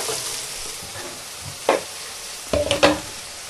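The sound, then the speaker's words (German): Onions frying in a pan, meant to turn glassy rather than crisp: a soft, steady sizzle underlies a few sharp clinks and scrapes as the pan is stirred. “Ja, auf der anderen Seite braten ja meine Zwiebeln.”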